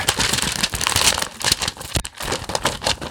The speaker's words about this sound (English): I subscribe to the print edition of Inside the Magic that gets sent to my house every single day, so I got my papers back. We can't hear those papers. Can you rustle them a little louder?